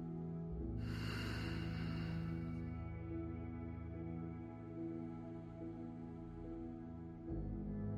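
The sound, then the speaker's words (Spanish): A slow, deep breath drawn in and let out during a guided breathing exercise, a soft airy rush swelling over a steady low tonal drone that continues after the breath fades. “Fluye conmigo. Inhala. Exhala.”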